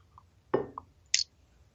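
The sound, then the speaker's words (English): Biting into a very buttery pastry mince pie topped with lots of sugar: a few short, quiet mouth sounds, with one crisp crunch of pastry in the middle and a light smack afterwards. “I've got very buttery uh, pastry mince pies with lots of sugar on top. And I'm going in.”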